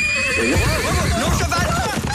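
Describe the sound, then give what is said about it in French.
A horse whinnies with a loud, wavering high neigh over steady clip-clop of hooves during a horse-drawn carriage ride. The sound is strong throughout. “T'es vraiment fait de me payer une promenade en calèche? Ça fait plaisir, maman.”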